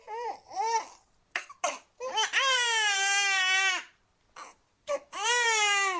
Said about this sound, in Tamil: விமலாவுக்கு பெண் குழந்தை பிறந்திருக்குமா, சுக பிரசவம்.